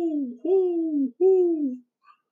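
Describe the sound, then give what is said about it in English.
A human voice imitates an owl hooting in daylight with two low, drawn-out hoots that each slide slightly downward in pitch, separated by a short pause and followed by a faint trailing sound. “It's daylight, and I hear an owl”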